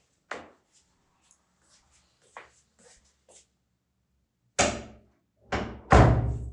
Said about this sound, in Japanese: 浴室だと結構響いちゃうので声が、よいしょ、はい、ちょっと扉閉めます。